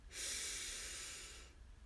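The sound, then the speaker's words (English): A single slow, soft breath, airy and hushed, swelling quickly and then tapering away as it ends. “Breathe in and out.”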